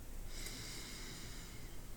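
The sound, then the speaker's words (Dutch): A slow, deep inhalation through the nose during a guided relaxation and stretching exercise. It is a soft, steady breathy hiss that lasts about two seconds, quiet and with no other sound. “Adem weer diep in door de neus.”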